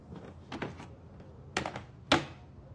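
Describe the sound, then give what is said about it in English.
A label maker being moved across a work desk table, heard as a few short bursts of knocks and clattery clicks with quiet gaps between them. “She shifts a label maker from one part of the table to another.”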